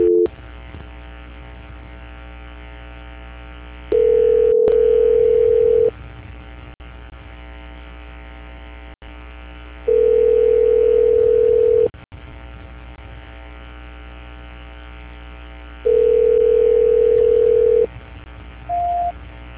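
Telephone call transfer tones: three steady mid-pitched beeps of about two seconds each, separated by longer stretches of faint line hum, then a brief higher blip at the end, with no talk.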